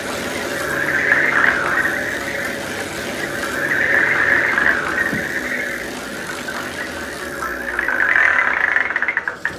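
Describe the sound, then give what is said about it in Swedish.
A lottery wheel spins for a draw, whirring in steady swelling waves before a quick run of clicks as it slows to a stop. “Och herr överste lotterimästare får snurra på något hjul där. Det gör jag. Sätter igång den nu.”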